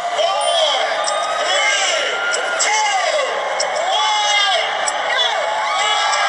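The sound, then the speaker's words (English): Crowd cheering at the Rockefeller Center Christmas tree lighting in Midtown Manhattan, a loud, continuous roar of many voices with repeated whoops and shouts rising above it. “Cheered as they flip the switch on the Rockefeller Center tree earlier tonight.”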